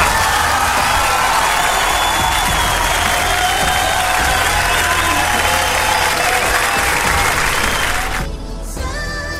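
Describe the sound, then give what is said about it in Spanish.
Applause sound effect played on air during a radio show: loud, continuous clapping from a large crowd with some cheering, holding steady before cutting off abruptly near the end. “No sé por qué puse los aplausos, pero valía la pena.”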